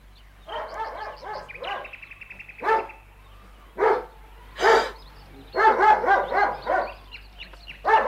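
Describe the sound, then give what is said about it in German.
A dog barks many times in irregular bursts, mixing rapid clusters of gruff barks with single sharp ones and a few higher yelping notes, loud over a low steady hum. “Keine Angst, mein Kind. Mein Hund beißt dich nicht.”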